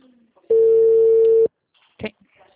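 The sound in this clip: Telephone calling tone: a single steady, loud beep lasting about a second, followed after a pause by a short faint click.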